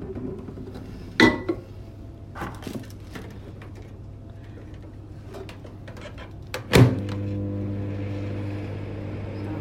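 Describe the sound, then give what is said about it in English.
A microwave oven heating food: a few sharp clunks, then a steady low electrical hum with a faint buzz that starts after the last clunk and runs to the end. “Then you put it into the microwave for a minute and a half, which I will do now.”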